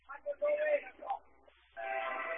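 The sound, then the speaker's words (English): A train passing near a baseball field in Frankfurt gives a few short whistle-like tones, then a steady, sustained horn blast near the end, heard under talk. “And now the train has made its appearance again. Again, it'll be our guest star our entire day. I'm assuming people can hear it. Pretty loud. It's right by the field down here at Frankfurt.”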